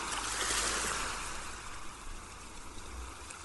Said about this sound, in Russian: Шум прибоя погружает вас в приятную дремоту.